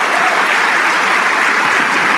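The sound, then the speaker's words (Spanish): An audience applauds during a church service, producing a brief, dense burst of steady clapping that stays at an even loudness from start to finish. “Vamos a darle un aplauso al Rey de Reyes.”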